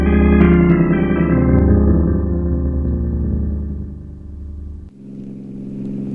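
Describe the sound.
A car engine roars as it speeds too fast toward a turn. The drone is loud and steady, with its pitch sliding gradually lower, then shifts abruptly near the end.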